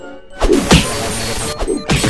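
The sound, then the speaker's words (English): Heavy smashing impacts from a Megaton Punch attack in a video game land as a few loud, crunching hits over a constant noisy game background. “Oh! Megaton Punch. So I just punched him from way far away.”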